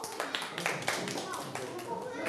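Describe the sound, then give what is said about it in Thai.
Children in a classroom applaud a group of classmates with dense, steady clapping that stays even and fairly loud from start to end. “ปรบมือให้กลุ่มนี้ครับ”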